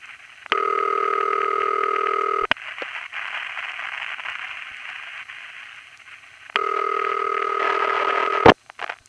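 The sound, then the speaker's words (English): A standard city ringback tone on a telephone line in Forest Hills, Queens, gives two long, steady ring bursts of about two seconds each. Between them lies a quieter stretch of faint line hiss, and a click closes the sequence. “This one's from Forest Hills. I'm sorry. And after the recording, we hear another standard City Ring from Richmond Hill, Queens.”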